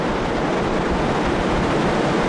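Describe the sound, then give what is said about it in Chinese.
A tidal bore's leading surge spreads over mudflats toward a dam, heard as a dense, constant roar of moving water with no pauses or distinct waves. “头部队已经是离我们越来越近了，让我们一起来期待它今天接触到坝身之后碰撞产生的形态。现在可以看到部分潮水的先头部队已经漫上了滩涂，”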